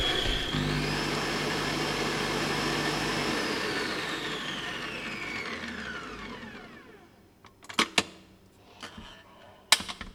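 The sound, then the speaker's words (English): An electric mixer whipping a foam gives a steady motor whine that falls in pitch as it winds down and stops. A few sharp clicks and clatters follow. “Now we have a really nice foam. And that took, what, 1 minute in the mixer? Or even less?”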